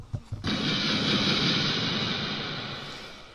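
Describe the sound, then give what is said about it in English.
A kamikaze bomb explosion sound effect: a few short thumps, then a broad, loud rumbling blast that holds and slowly fades over about three seconds. “And you have just been bombed. Kamikaze bombed.”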